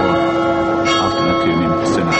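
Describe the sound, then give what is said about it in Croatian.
Church bells ringing at noon, a loud, dense, continuous peal with no pause across the whole stretch. “Crkvena zvona koja se označila podne malo su omela izjavu Zlatka Lagumdžije”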